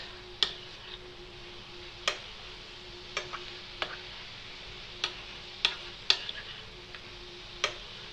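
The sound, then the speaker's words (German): Food frying in a pan gives a gentle, steady sizzle with a few sharp crackles and pops scattered through it, over a faint low hum. “So, jetzt lassen wir jetzt weiter braten. Das drehe ich jetzt ein bisschen mehr auf obwohl es eh ganz fein dahin zischt.”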